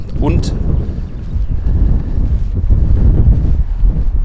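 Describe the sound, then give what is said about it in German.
Wind buffeting a microphone outdoors, a loud, continuous low rumble with a broad noisy hiss that keeps going for the whole stretch without clear breaks. “Außer Wind hört ihr ja sowieso nichts.”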